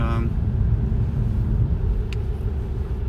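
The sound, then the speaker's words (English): Steady low engine and road rumble from a car driving at night through heavy snowfall at about 50 km/h. The rumble is loud and continuous, with a brief voice at the very start. “I'm driving at night, heavy snowfall, like I say. I'm driving 50 kilometers per hour”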